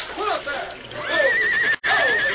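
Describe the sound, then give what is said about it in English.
Horses of a wagon team neighing in distress as a current carries them away, shrill whinnies with wavering pitch mixed with agitated voices. “The horses. The current's carrying them away from the wagon.”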